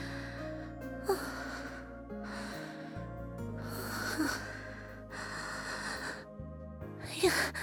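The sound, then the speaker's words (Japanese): A slow, deep breath drawn in and let out, with a few airy breath bursts spaced out over several seconds against a steady low tonal background. “まずは深呼吸をして”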